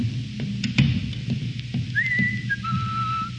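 Whistling right outside an office: a clear whistled tune that slides up to a bright note, then drops to a lower held tone, over quiet background noise.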